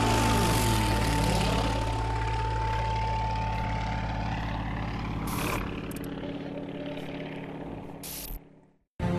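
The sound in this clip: Racing airplanes flying a timed course between pylons: a loud, sustained propeller-engine drone with a whining tone that eases slightly partway through, then cuts off abruptly near the end.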